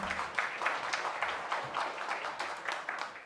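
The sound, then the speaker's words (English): Audience applause at a church worship service, moderately faint and continuous, with dense clapping that swells and eases slightly throughout. “Can we give them a hand again?”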